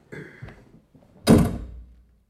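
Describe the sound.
A door slams shut on its own in a small radio-drama studio, one heavy, booming thud with a short low rumble dying away, after a few faint, softer knocks.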